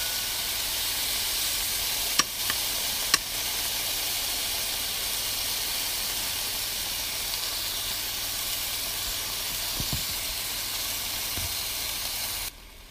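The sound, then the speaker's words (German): Beef sears in a pan with a steady, loud, broad sizzle that holds evenly throughout. A couple of faint clicks come early on, and the sizzling cuts off abruptly at the very end. No one speaks. “Das Fleisch brutzelt schön vor sich hin.”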